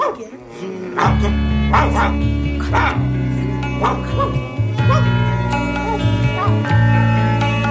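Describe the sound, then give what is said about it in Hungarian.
A family dog barks and yips in several sharp bursts over a steady, sustained tonal background that continues throughout. “Ez fickó, akiről annyit mesélt már Bors néni. Ez Bors néni édesapjának a kutyája.”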